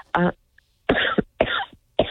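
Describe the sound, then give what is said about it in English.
A person coughs several times in a row, harsh rough bursts separated by short pauses, fairly loud with no talk between them. “I'm almost going to cough.”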